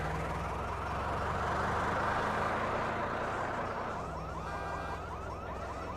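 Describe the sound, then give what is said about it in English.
Car tires grind against pavement as the car pulls away from the curb with smoke rising, a loud, sustained roar carrying a high whine that eases slightly over the last couple of seconds. “She gets in. Smoke rises from her tires as they grind against the pavement. She pulls away from the curb and drives down the sloping street.”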